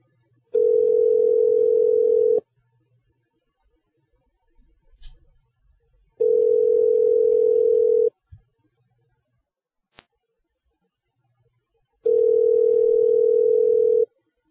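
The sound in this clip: An outgoing telephone call rings on the line. Three long, steady ringback tones of about two seconds each sound at a single mid pitch, separated by quiet gaps with faint clicks.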